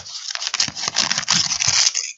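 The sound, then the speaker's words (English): A paper envelope being torn open: a steady, crisp ripping and crinkling that lasts about two seconds and then stops abruptly. “So let's go ahead and give this a try here. We're opening the envelope. See if you can hear this.”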